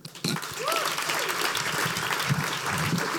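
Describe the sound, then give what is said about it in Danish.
Audience applause at a live comedy show in Aarhus greets two men arriving as guests. A brief hush gives way to loud, steady clapping with a few cheers mixed in. “Mine damer og herrer, øh, jeg kender ikke deres navne. I skal give en kæmpe stor hånd til to mænd fra Aarhus.”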